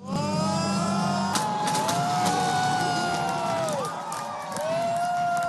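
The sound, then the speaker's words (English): Ukrainian supporters cheer as exit polls show a landslide presidential runoff win for Zelensky. The crowd noise is loud and continuous, with drawn-out sliding tones riding over it and a brief dip near the end. “Supporters cheered as they watched the Ukrainian exit polls come in after a landslide victory of Volodymyr Zelensky.”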